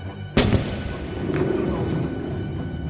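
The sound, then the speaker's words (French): A cannon fires from the frigate Abraham Lincoln at a sea creature: one sudden, loud boom that trails off into a low rumbling decay. “Monsieur voudra sans doute se boucher les oreilles. Le canonnier de l'Abraham Lincoln va tirer sur l'animal.”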